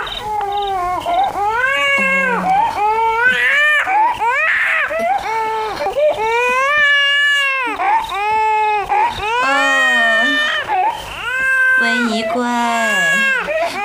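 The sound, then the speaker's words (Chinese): An infant princess cries in loud, sustained wails that keep rising and falling in pitch. She has just been parted from her birth mother and moved to a new palace, and nobody can soothe her. “哭， 这孩子可真难哄。”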